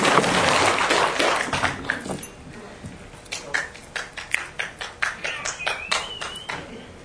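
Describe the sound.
Audience at a Buddhist dharma talk clapping hands, first a dense burst of applause, then after a short lull a run of steady, rhythmic claps in unison.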